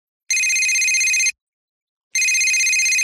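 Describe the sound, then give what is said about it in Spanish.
A telephone rings twice. Each ring is a bright, steady electronic trill of about a second, and a longer silent gap separates them. The rings are loud and stand alone. “Buenos días, le llamo para ofrecerle una promoción.”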